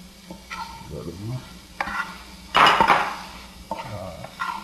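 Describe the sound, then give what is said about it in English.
A spoon stirring ingredients in a pot while sugar and salt go in, with scraping strokes and light metallic clinks and one louder rattling scrape in the middle. “would you mind helping me out here and you stir this while I add any other ingredients?”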